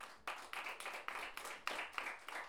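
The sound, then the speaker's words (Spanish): Audience applause for a performer at a gathering of women payadoras, heard as a dense, steady patter of many hands clapping with small swells and no voices over it. “Muchas gracias por venir, un aplauso para Magali.”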